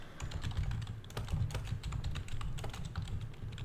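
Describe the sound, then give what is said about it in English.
Rapid typing on a computer keyboard while a search is entered, with many quick, irregular keystrokes clattering steadily throughout and no voices. “But for me, like if you do a search, and I'm going to type.”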